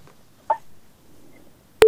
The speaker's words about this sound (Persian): بله تماسی شنونده ما هم قطع شد.